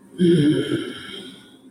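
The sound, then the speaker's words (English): A single deep breath, a soft airy rush that swells quickly and then tapers off slowly over about a second and a half, heard alone. “Did you hear the deep breath? That's the first advice.”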